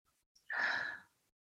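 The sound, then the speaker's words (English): A single deep breath, airy and hissy, swelling quickly and fading after about half a second, faint and heard alone. “sit up straight, and take a deep breath in,”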